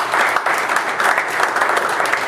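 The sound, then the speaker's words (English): A church audience gives a round of applause during a service, many hands clapping in a lively, slightly uneven patter that holds steady throughout. “Give them all a hand of applause.”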